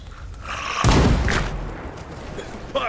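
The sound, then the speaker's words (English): Gunfire erupts in a sudden loud boom, a single heavy blast that decays over roughly a second, with quieter rumbling before and after it. “Then who the hell was shooting?”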